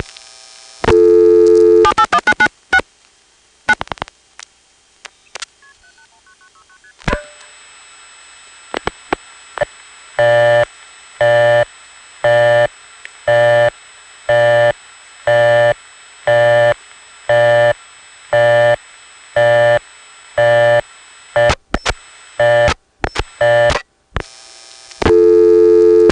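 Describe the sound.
A telephone busy signal sounds as a long, steady run of evenly spaced on-off tone bursts, loud and alone. It follows a call routed over a trunk line and is preceded by a few shorter beeps and clicks.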